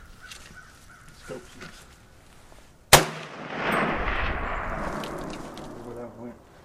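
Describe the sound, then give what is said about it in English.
A single gunshot fired outdoors: one sudden, loud crack followed by a long, rumbling echo that slowly fades, with faint voices before it. “And of course, I could not leave this podcast without a little bit of shooting.”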